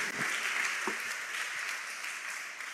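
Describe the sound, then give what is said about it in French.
A church audience applauds to acclaim the word of God after a scripture reading: a dense, even wash of many hands clapping that holds steady for the whole stretch, with no talk over it. “Est-ce qu'on peut acclamer la parole de Dieu?”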